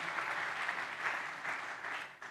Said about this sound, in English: Can you clap your hands for Jesus, somebody?